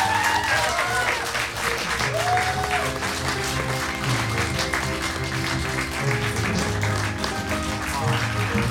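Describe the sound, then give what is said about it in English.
An audience applauds at the end of a performance, a dense, steady wash of clapping that holds at an even loudness throughout, with crowd voices and some tonal sound mixed underneath. “A big round of applause for our amazing performers!”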